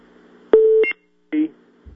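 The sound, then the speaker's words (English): Two electronic beeps on a phone line, the first a longer steady tone and the second shorter, separated by a brief silence over a faint line hum. “You got cut off. Oh. You got a lot of beeping here.”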